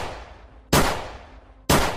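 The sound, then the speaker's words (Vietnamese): A pistol fires twice: two sharp, loud cracks about one second apart, each trailing off in a brief noisy decay over a faint background. “Vị linh mục giơ hai tay về phía trước, anh cầm chặt khẩu súng hơn, rồi một lần nữa bóp cò.”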